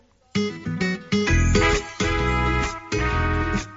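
Solo ukulele playing a cover of a Spanish-language song: bright plucked and strummed chords in a steady rhythm, each strum ringing briefly before the next, with no voice.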